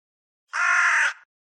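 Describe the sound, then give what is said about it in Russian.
A raven gives a single harsh, displeased caw, urgent and impatient. It is loud and alone against silence, lasting just over half a second. “Раздался недовольный, словно поторапливающий голос ворона.”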